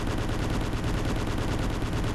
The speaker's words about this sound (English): Come up shooting. Down, down, down. Come up shooting.